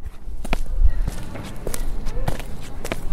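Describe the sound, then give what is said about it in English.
Footsteps of someone out walking tap at an even, unhurried pace, a series of soft thuds over a low background hum. “Imagine yourself taking a walk.”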